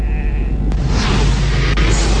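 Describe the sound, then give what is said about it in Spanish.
Sheep bleating as a flock closes in, a loud, dense wash of overlapping calls over heavy low rumbling, broken by two sharp clicks. “Estamos atrapados. De las ovejas. Las ovejas se están rebelando.”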